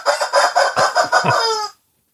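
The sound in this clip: A rooster crows in a loud, drawn-out call of rapid pulsing syllables lasting under two seconds, then falls abruptly silent.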